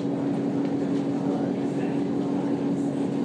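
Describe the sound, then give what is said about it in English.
A boat's engine runs before departure, giving a steady, unbroken low drone with a constant humming tone and a faint hiss throughout. “and we're now actually on the boat. You may be able to hear the engine in the background. I don't think we've actually set off yet.”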